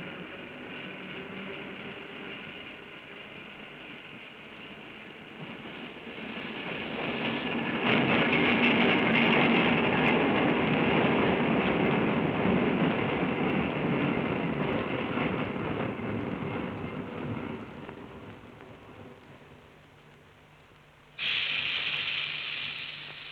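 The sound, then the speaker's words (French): A metro train pulls into a station with a rumbling roar that swells loud, holds, then slowly eases off. An abrupt, brighter high-pitched sound cuts in just before the end. “Déjà, une autre rame entrait.”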